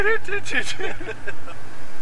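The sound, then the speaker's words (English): Interior road noise of a car driving along, a steady low rumble running beneath a person talking throughout. “I think we should point out now that we're actually in a car while we're doing this. We're in a car driving along.”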